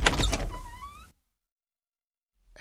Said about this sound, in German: Ich mache meine Tür auf.